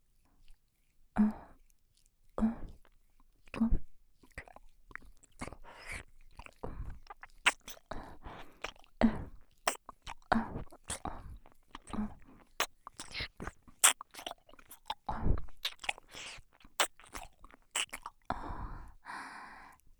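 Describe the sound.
Gentle nibbling mouth sounds close to the ear: many soft, wet clicks and small bites with faint breaths, quiet and irregular in rhythm, with no talking.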